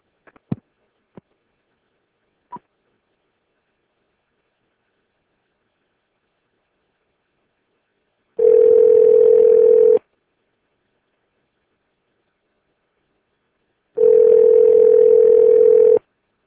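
A telephone call being dialled and ringing: a few short clicks, then two long, steady ringing tones, each about a second and a half, separated by several seconds of silence.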